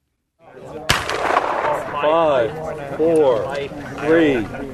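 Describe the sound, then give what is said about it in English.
A single sharp crack from a black-powder starting gun at a traditional wooden-snowshoe race, followed by loud shouting and cheering voices. “Then the gun goes off.”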